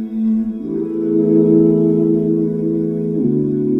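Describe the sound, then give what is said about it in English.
One person's voice is layered in harmony with itself through a vocal harmonizer in a live, unedited performance. Stacked sustained notes form a smooth chord that shifts twice, held steady and fairly loud, without spoken words. “What you're hearing right now is one person's voice, layered in perfect harmony with itself, using an instrument called a vocal harmonizer.”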